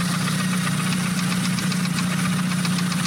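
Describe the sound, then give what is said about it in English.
Idling engine with a steady, rapid ticking running through its continuous hum, even in loudness throughout. “You hear that tick? What might that be?”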